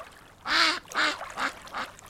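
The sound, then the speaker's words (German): Duck quacking, as of a mechanical duck built to quack, walk, flap its wings and eat: four nasal quacks in a loose rhythm, the first the longest and loudest, the rest shorter and slightly fainter. “Eine Ente, eine mechanische Ente, um genau zu sein. Die konnte schnattern, laufen, mit den Flügeln schlagen, fressen.”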